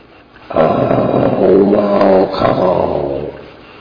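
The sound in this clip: A lion's growl in a folk tale about a lion catching a mouse: a low, rough, sustained snarl lasting about three seconds, loud and heard alone without talk.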